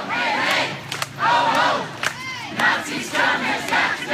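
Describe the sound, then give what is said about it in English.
A crowd chants at an anti-racism march and rally in Maumee on a Monday evening, with loud, rhythmic shouted phrases repeating in regular waves of many voices. “It was a pointed chant in a community where many say they want to send a message that racism is not welcome.”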